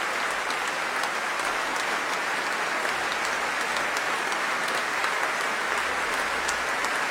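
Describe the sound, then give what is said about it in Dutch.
Audience applause after a concert of French sacred baroque music, a dense, even wash of many hands clapping that stays steady and moderately quiet for the whole stretch, with no talk over it. “En terecht, groot applaus.”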